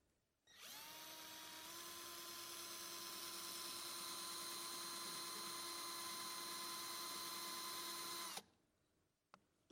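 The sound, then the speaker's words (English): A power drill bores a hole of about 2 mm through a CD. It gives a steady, high whine for about eight seconds, then cuts off abruptly. A few faint clicks follow in the quiet. “So I've drilled a hole now in my CD. So that hole is about 2 millimeters, about that.”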